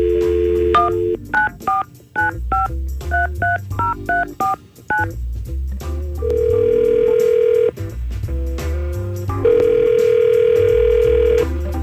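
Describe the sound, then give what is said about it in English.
A telephone call being placed: a rapid run of many keypad dialing beeps, followed by two long, steady ringing tones. “Let's call Theresa right now.”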